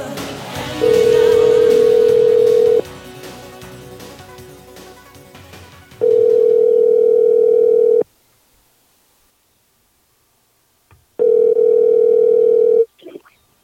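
Telephone dial tone while placing a call: a steady, mid-pitched tone that sounds in three long stretches with gaps between them. Faint background noise fills the first gap.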